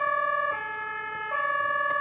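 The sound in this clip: An emergency vehicle siren is being tested, a loud two-tone horn that alternates evenly between a higher and a lower pitch.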